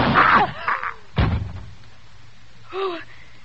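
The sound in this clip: A gunshot in a radio drama lands as a single sharp bang, with raised voices just before it and a voice again shortly after.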